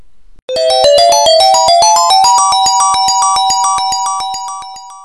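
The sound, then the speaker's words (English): Sega video game special stage sound effect: a loud, rapid run of chiming electronic notes that steps upward in pitch, each note pulsing quickly with bright, ringing overtones. “I was thinking we could use this every time we hit a stretch goal, because it's oddly appropriate because it is Sega related.”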